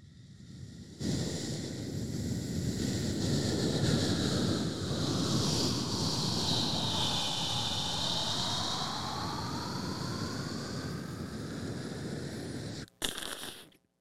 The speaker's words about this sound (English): I feel like you could also really do the sound effect of a spaceship landing.